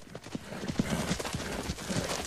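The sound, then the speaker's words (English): Hooves of a black Mustang horse galloping round and round a corral: a rapid, steady clip-clop rhythm of many hoofbeats that carries on throughout. “Howard, get the horse. The black Mustang races round and round the corral.”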